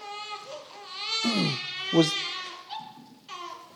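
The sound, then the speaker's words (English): Babies fuss in church, making a few wavering, cry-like wails and whimpers that rise and fall in pitch, with quieter fussy sounds between them. “The babies in the church are not bothering me. It's not new that babies have been among the community of God. And guess what? They make noise sometimes.”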